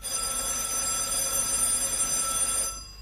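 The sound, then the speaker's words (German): A telephone bell rings in a steady, unbroken trill for under three seconds, then stops abruptly. It sounds alone, with no voices. “Aber still. Das Telefon.”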